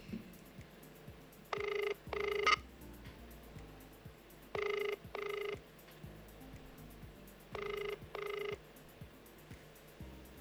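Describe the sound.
A telephone ringback tone on a call line repeats in three double-ring cycles, each a steady buzzing tone pair, sounding moderately loud over faint background noise.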